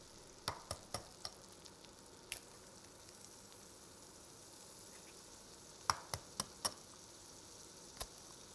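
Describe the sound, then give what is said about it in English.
Eggs fry in bacon grease with a faint, steady sizzle and many sharp pops scattered across it, clustering early on and again later. “And now I'll cook the eggs with bacon grease.”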